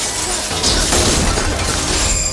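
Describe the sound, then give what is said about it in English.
Giant shards of glass falling and shattering, heard as a dense, loud, continuous wash of crashing and crackling breakage throughout, with no talk. “Giant shards of glass fall behind Peter.”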